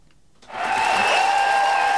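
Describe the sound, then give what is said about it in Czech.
Long standing ovation for actor Dustin Hoffman in the full large hall of Hotel Thermal in Karlovy Vary: dense applause swells in after a quiet start and holds steady. “Plný velký sál karlovarského hotelu Thermal přivítal herce Dustina Hoffmana dlouhým potleskem ve stoje.”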